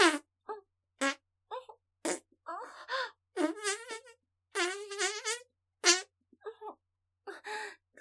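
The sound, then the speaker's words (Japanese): Farting sounds come in many short, irregular bursts, some with a buzzy tonal quality, interleaved with wailing, moan-like vocal sounds. No words are spoken. “そりゃ、おならは止まらないかもしれないけど、”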